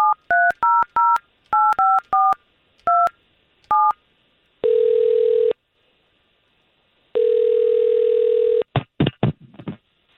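A telephone being dialed for a call: a quick run of keypad beeps at differing pitches, then two long, steady ringing tones, ending in a few brief clicks.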